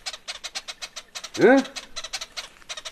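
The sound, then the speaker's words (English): A person in northern Mozambique makes a rolling 'brrr' trill followed by a 'hmm' to call birds, a rapid pulsing rattle with a short rising hum in the middle, fairly quiet and alone. “These calls, brr, hmm, is used fairly consistently here in the north of Mozambique.”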